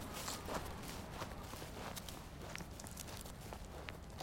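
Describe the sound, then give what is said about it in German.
Footsteps walking along a field path, a quiet, steady run of soft, scuffing steps at an even walking pace with faint crunching, staying low in level throughout. “Wir gehen einen Feldweg entlang, überqueren eine kleine Brücke mit Bachlauf”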